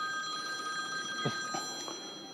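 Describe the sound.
A telephone rings with a steady electronic tone that sounds faintly and continuously throughout, with no voices.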